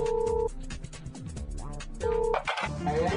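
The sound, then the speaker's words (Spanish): An unanswered telephone call rings out as two short, steady electronic tone bursts, separated by a gap of about one and a half seconds with other mixed sound between them. “el ingeniero Slim está ocupado o prefiere no contestar su llamada”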